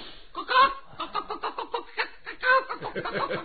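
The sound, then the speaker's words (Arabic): Chicken clucking comes as a rapid, rhythmic run of many short, clipped, nasal clucks at a steady moderate loudness. “فرخة بتوكوك”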